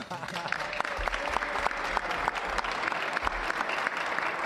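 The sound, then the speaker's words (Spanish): Audience applause, a dense and steady patter of many hands clapping that holds at an even, fairly loud level for the whole few seconds. “Eso también merece un aplauso”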